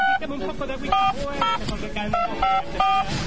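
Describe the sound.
Telephone keypad tones as a number is dialed: many quick, bright beeps in an uneven sequence.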